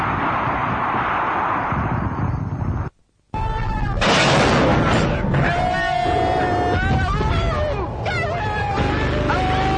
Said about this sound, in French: Allez, je tire. Roquette.